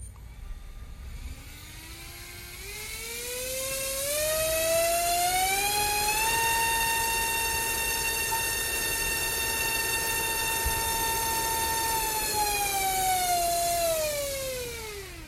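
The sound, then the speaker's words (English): A three-bladed propeller on a test rig spins up with a whining tone that climbs steadily in pitch, holds a loud, steady drone, then begins to wind down slightly at the end. “There you have it. So the 3-bladed prop will give us more thrust.”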